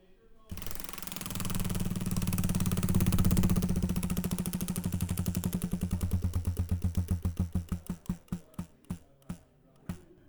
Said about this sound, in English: So let's spin yet again this other. Oh, so let's get this wheel up on the desk here.